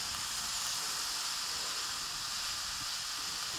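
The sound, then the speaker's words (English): Garlic sizzles in a hot pan as it is stirred until soft, giving a steady, even hiss with a crackle running through it. The sound stays level throughout, with no voices. “Garlic. And they just get stirred around until they get soft.”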